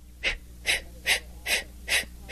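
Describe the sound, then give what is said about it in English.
Deep breaths let out from the lower abdomen as a breathing demonstration: five breathy, rushing exhalations in an even rhythm, each rising and fading over a low steady hum. “you put your hands together in the front of your body and take a long deep breath and let it out like so”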